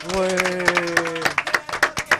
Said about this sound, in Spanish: un aplauso por favor